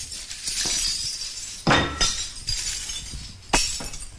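Crockery being smashed in a smash room, a run of sharp, bright crashes of breaking ceramic and clinking shards, with several distinct loud impacts in the second half.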